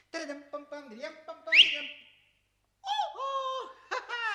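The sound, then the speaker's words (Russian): A whistle from under an umbrella in a stage play, heard as a quick, upward-sliding whistle. It comes among warbling, hooting, bird-like calls that fill the stretches before and after a short pause. “Из-под зонта раздается свист.”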